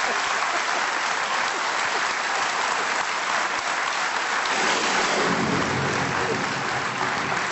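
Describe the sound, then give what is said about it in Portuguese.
Heavy rain pours down outside a studio as a dense, steady hiss that holds at an even loudness for the whole clip, with a deeper rumble joining in during the second half. “a chuvada brutal que está a cair e que faz com que este som... que fica o som do estúdio fica um bocado, aí está ela em grande”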